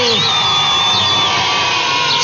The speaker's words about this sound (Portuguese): Palmas para todo mundo, palmas para quem acertou, para quem participou.